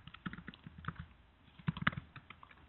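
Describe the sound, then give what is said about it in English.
Typing on a computer keyboard produces faint, irregular clicks and taps in quick bursts, with slight pauses between runs of keystrokes. “So I'm going to type them out”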